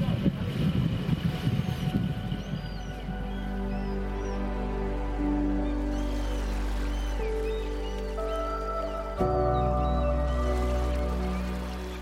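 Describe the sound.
A motorboat engine accelerates slowly on a choppy sea in the wind, under a steady low drone with tonal harmonics. Wind buffets loudly at first, and the engine jumps in loudness late on.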